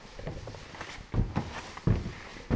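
Footsteps climb a staircase leading up from a restaurant, a few heavy, uneven thuds in the second half following lighter scuffs, with no voices.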